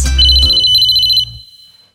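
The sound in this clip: A telephone ringtone plays as a loud, bright electronic ring with a sustained high tone. It cuts off after about a second and a quarter, leaving a short fading tail.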